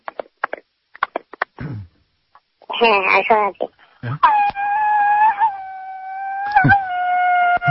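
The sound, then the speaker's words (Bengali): A man imitates the wailing cry of a weeping bride. A few short clicks and a brief quavering sob lead into a loud, long, wavering high wail that is held and briefly broken. “আপনি মেয়ের ভূমিকায় মানে কনের ভূমিকায় অভিনয় করবেন এখন, আমরা শুনবো একটি কান্না, কান্নার রোল।”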